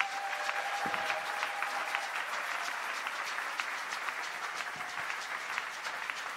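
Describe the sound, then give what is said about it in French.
Congregation applauding during a church service, a soft, steady stream of many hands clapping that stays even and fairly quiet for several seconds. “Acclamons le Seigneur.”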